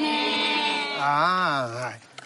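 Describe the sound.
A human voice imitates a goat bleating, producing one drawn-out, nasal bleat with a wavering, quavering pitch, loud and alone, trailing off at the end.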